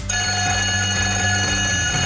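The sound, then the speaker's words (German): Electric break bell on a Frankfurt radio station, played as a contest signal between songs, a loud continuous metallic ringing that buzzes at an even level from start to finish. “Da wird es zwischen zwei Liedern eine Pausenglocke geben. Die klingt so.”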